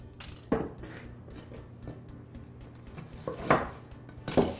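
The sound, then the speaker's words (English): A twice-baked cookie loaf is lifted off a baking pan, with a few sharp clinks and scrapes against the pan standing out from quiet handling noise. “So let's get our second loaf here off the pan.”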